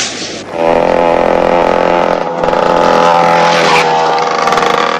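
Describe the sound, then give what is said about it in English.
A dirt bike speeds down a road with a loud, steady, high-revving engine whine that builds quickly at the start and holds throughout with brief dips in pitch. “Ricky speeds down the road on his dirt bike”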